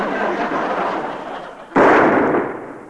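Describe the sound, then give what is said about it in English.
A single gunshot fired at a bulletproof vest, a sudden loud blast with a broad, noisy tail that slowly fades, following a steady hiss. “Good shot, Colonel. Ah, I'm proud to say the bullet is not penetrated. It has been stopped.”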